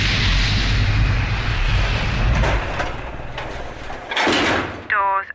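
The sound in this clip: Elevator door sliding open in a radio drama: a long, loud, steady rumbling slide with a brighter swelling burst near the end, then a short tonal sound as it finishes.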